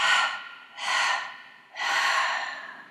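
Breaths drawn in during a guided breathing exercise: three long, airy breaths with short pauses between them, slow and unhurried, with no voices.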